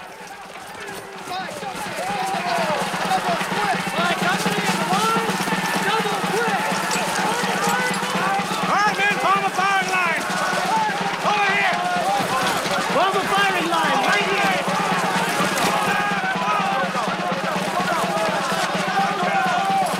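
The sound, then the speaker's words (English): Many feet run through a wood as an 1863 Civil War infantry regiment charges, a dense, continuous patter of footfalls over a low steady drone. “The 54th run through a wood past fallen white comrades.”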